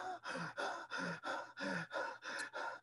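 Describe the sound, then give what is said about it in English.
Quick, rhythmic breaths move in and out through a relaxed, open throat during an emotional release. Many even, breathy pulses follow one another with no pause and no talk. “We relax our throat. We move breath back and forth through our throat to keep our throat open.”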